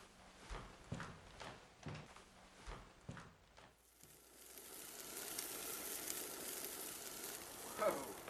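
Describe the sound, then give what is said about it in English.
Steak sizzling on a hot grill, cooked well done: a few dull knocks come first, then a steady, faint hiss of frying meat that carries on to the end. “How do you like your steak? Oh, steak sounds great. Well done's fine. Well done it is. Boy, this grill sure is hot.”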